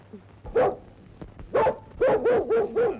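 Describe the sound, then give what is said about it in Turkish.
A dog barks in short, high yips: two spaced barks, then a quick run of several more in a row, loud and with no talk over them. “Köpeğim, al al al! Sana mama vereyim, al al al!”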